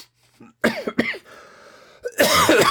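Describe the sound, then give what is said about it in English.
Throat clearing and coughing as a person works mucus out of their throat: a few harsh, raspy bursts separated by a quieter breathy stretch, then a final rough, noisy clearing. “I do have a little mucus I have to work out. Okay, get that out of there.”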